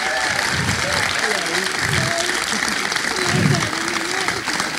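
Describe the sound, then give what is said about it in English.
A live comedy audience applauds to welcome a comedian onto the stage: steady, loud, continuous clapping throughout, with a voice heard over it. “Please welcome all the way onto the stage.”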